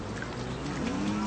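Cattle lowing: a single low, drawn-out moo that rises slightly in pitch toward the end, fairly faint over a steady background.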